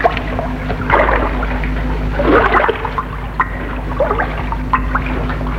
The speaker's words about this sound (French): Dans l'étang nage le jeune cavalier. Il est nu.